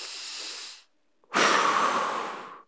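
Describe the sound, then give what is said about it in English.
A deep breath taken in demonstration: two long, breathy rushes of air with a short silent pause between them. The second is louder and longer, with a hissing, airy texture, and no talk is heard. “And so take a deep breath right now in your home. Go ahead, do it.”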